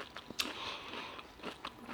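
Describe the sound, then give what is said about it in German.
Faint wet lip smacking while chewing food, with several short moist clicks and soft crunchy mouth noises repeating irregularly. “Geschmatzt? Also mir schmeckt. Ich habe gesagt, halt geschmatzt.”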